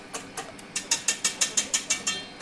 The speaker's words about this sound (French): Hop, dans le batteur mélangeur, ça commence à prendre tournure. On voit le beurre qui est en train d'être aggloméré avec la farine, vous voyez.